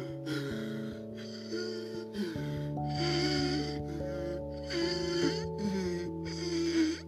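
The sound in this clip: A voice imitates a fish-like creature gasping for air on land, making a series of short, breathy, raspy gasps over steady background music.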